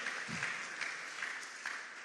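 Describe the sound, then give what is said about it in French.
Congregation applauding in a church service, a steady wash of clapping that holds at an even level for about two seconds with no voices over it. “Est-ce que d'abord on peut acclamer Dieu pour le docteur? Oui, il faut acclamer Dieu.”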